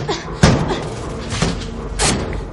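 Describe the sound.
Heavy thuds as a shoe strikes a false ceiling and tears off a piece in a thriller film scene, a few blunt impacts spaced unevenly over a constant background rumble.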